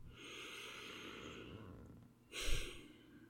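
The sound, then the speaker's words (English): A deep breath, heard as a soft airy sigh, very quiet and hissy, with one fuller exhale swelling briefly near the end. “So I'm going to take a breath with all of that, because I just dumped a whole lot of me on you.”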